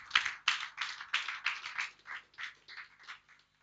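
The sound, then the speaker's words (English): A church audience clapping in praise to God: a series of sharp, distinct claps in a loose, fairly steady rhythm that thins out and grows quieter toward the end. “give God a clap of it.”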